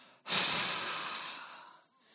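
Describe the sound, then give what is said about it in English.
A preacher breathes out to imitate breathing on someone: a single long, breathy exhale that starts abruptly, holds steady and slowly fades over about a second and a half. “And then, watch this. When he had said this, he breathed on them”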